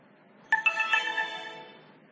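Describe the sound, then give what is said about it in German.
An electronic device's start-up tone on switching on: a brief chiming sequence of a few quick clear notes that ring on and fade away, faint and heard alone. “Wir schalten das Gerät deshalb ein.”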